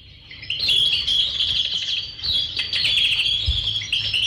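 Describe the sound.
Birds chirp in a garden, with busy, overlapping high tweets and calls continuing throughout. No people talk.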